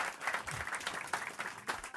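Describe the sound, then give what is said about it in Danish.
Short, fairly faint applause greets a newspaper's foreign editor on stage at a live event, scattered clapping that pulses in uneven bursts for a couple of seconds. “Giv hende en stor hånd.”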